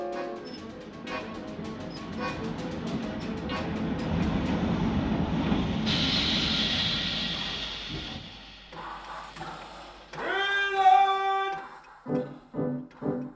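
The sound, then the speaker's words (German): A train arrives at a small-town station in a radio drama, its rumble swelling into a loud rushing roar with a high hiss, then dropping away before a short tonal sound and a few brief bursts. “Da ist Ihr Zug. Ihr Zug, Ihr Zug.”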